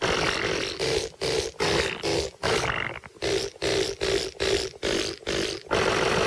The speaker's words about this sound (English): a bourrée of blasts, or you just want to tell the world that there's a song in your fart.